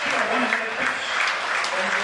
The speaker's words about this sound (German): Ist mir jetzt aber nicht ganz klar, warum die Leute hier klatschen.